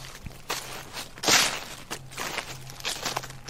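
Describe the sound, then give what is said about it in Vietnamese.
Footsteps rustle and crunch over dry medicinal leaves spread out to dry in a yard, a few quiet, uneven steps that sound faint and scratchy. “càng lúc càng rõ tiếng bước chân sột soạt dẫm lên đám lá thuốc khô mà mẹ cô phơi ở ngoài.”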